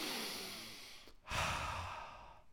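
Deep, slow breathing during a guided relaxation exercise, in through the nose and out through the mouth: two long, airy breaths separated by a brief pause, the second fuller and louder, with no talking.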